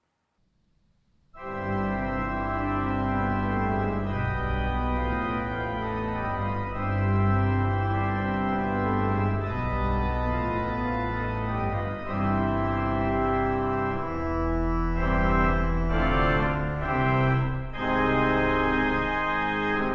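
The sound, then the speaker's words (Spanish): Final chords of an organ piece played on a Skinner pipe organ in a room with dry acoustics: loud, sustained full chords over deep bass, shifting several times and continuing without a break. “Primero sonará aquí, en otro fino órgano construido también por Skinner, pero ubicado en un recinto de acústica seca y poco noble.”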